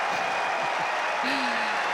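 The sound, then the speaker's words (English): A tennis crowd gives a standing ovation after a point between Alexander Bublik and Tiafoe, with dense, steady applause filling the whole clip while a commentator talks over it. “Standing ovation in the crowd.”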